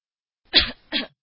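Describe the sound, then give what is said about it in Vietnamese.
Two short, light coughs come from outside a door, the first slightly stronger than the second, with silence around them. “Chợt nghe ngoài cửa có một tiếng ho nhẹ”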